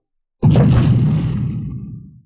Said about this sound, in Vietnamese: Nương theo một hồi âm thanh va chạm cực lớn vang lên, phiến cửa đá kia lùi về phía sau mở ra